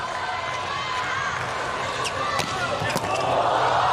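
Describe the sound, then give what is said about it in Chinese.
A volleyball ace serve by Slovenia that earns the first set point gives a few crisp ball smacks over steady crowd noise, with commentators talking. “哇，这个真是敢发呀。 是的， Ace 球帮助斯洛文尼亚队拿到了第一局局点。”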